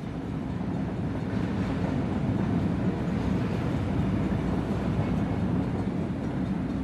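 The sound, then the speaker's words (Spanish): Gentle, steady rattling of a moving train, a low, even rumble that continues without pause and without distinct clicks or voices. “Del suave y relajante traqueteo del tren.”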